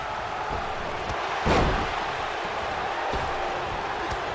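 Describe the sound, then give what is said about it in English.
A wrestler's body slam at a pro wrestling event gives a single heavy thud. A steady roar of the crowd continues throughout and swells briefly around the impact. “what a slam by John Cena”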